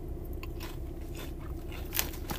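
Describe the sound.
Someone bites into and chews a crunchy snack, making a run of dry, crackly crunches that ends in one sharper, louder bite.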